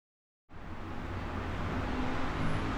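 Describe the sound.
Steady road noise from a car driving into town through traffic starts abruptly after a moment of silence, then holds as a broad, even rumble to the end.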